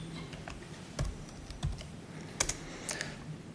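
Typing on a computer keyboard while editing an SSH configuration file: faint, irregular clicks of individual keystrokes scattered across a quiet background, with brief pauses between short bursts.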